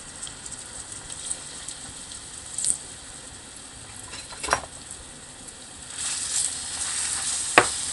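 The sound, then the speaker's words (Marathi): Sizzling of ginger-garlic paste being sautéed in a pan: a steady, moderately loud frying hiss with a few sharper clicks and bursts scattered through it. “परतून घेऊ”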